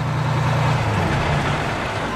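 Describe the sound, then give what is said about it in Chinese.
Low, steady engine rumble of a city bus pulling up and stopping at a bus stop on a busy street in Nanjing, a continuous drone that holds level throughout. “一辆公共汽车在一个站牌跟前停了下来，车门打开”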